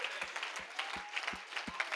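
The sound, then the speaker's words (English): Congregation applause during a church service: a dense, steady wash of clapping with a regular low thump pulsing beneath it. “You are applauding the Lord of Lords. He asked you to do it.”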